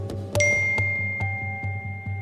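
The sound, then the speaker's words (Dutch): A message notification chime on a phone: a few bright, clear dings ring out over a steady, soft rhythmic ticking, with a high tone lingering between the strikes. “Binnen no time hebben ze een berichtje terug.”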